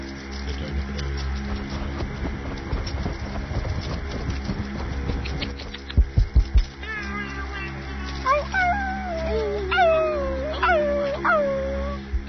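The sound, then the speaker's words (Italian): A person imitates a small dog or coyote with a series of short howling yips. Each yip swoops in pitch, rising and then sliding down, over steady background noise. A burst of sharp pulses comes just before the yips. “imitando il cagnolino o il coyote, non so, vabbè. Coyote. Il coyote.”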